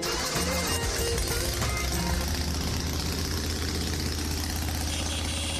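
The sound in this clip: A motorcycle engine with freshly cleaned exhaust pipes idles in a loud, steady, deep rumble that stays even throughout.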